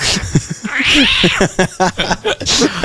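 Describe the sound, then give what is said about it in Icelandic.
A small young house cat meows loudly. One long drawn-out cry rises and then falls in pitch, among several shorter choppy bursts of sound. “Jú, þetta er kötturinn minn.”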